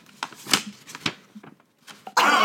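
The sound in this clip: A handmade paper envelope is opened with a few brisk bursts of crinkling and tearing paper, separated by short pauses, before a louder burst of sound at the very end.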